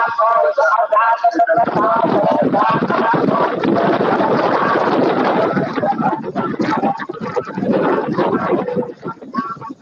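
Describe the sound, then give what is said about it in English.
Engine rumble and road noise picked up by a computer microphone during someone's tuk-tuk ride: a loud, muffled, continuous drone that stays thick throughout, with a few breaks near the end. “Someone's riding in a tuk-tuk with their computer on.”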